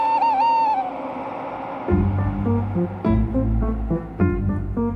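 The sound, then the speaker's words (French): Calls of a barn owl, the church-steeple owl known as the white lady: a wavering high tonal cry, then several lower, rougher harmonic calls, loud and without talk. “Notre chouette dite des clochers.”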